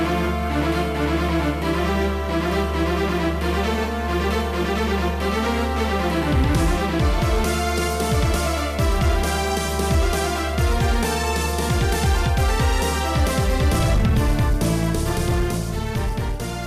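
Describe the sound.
Music from a Nintendo DS action game plays in a fast, grand style, with layered melodic lines over a deep sustained bass and rapid repeated notes that grow busier and brighter midway, continuous and loud.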